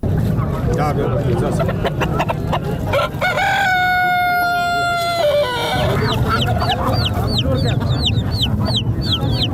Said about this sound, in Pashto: د کورنۍ چرګانو کلیوالو او وحشي مرغانو دا ژغونه په ترینکوټ ښار کې له جمعه بازار یا ګنج څخه پورته کیږي